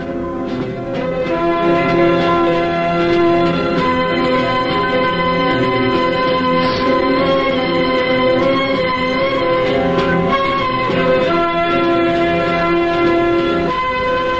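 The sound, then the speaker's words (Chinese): Sustained, loud horn-like chord from a train racing across snow in heavy winter snowfall, holding steady for the whole stretch with faint bell-like accents and no voices. “冬天的大雪越来越大，列车在雪地上飞驶而去”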